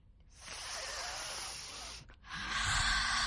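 A deep breath is drawn in, then slowly let out during a calming breathing exercise: two long, airy rushes of breath separated by a short pause, with no talking.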